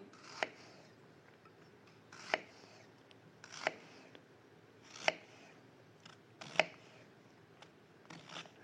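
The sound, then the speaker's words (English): Knife chopping an onion on a board: a few sharp, evenly spaced knocks about every second and a half, with fainter taps in between, quiet overall against a hushed background and no talk. “Basically what I do is I, you know, cut the onion just so.”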